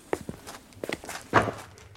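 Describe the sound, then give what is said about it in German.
Footsteps climbing a staircase: several dull thuds in an uneven rhythm, with one heavier, louder step near the end. “Verwirrt folgte ich dem Detektiv die Treppe hinauf.”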